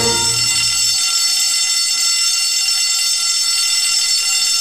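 A harsh, unpleasant crackling signal, like a buzzing alarm, sounds loud and unbroken for the whole clip. A low hum under it stops after about a second.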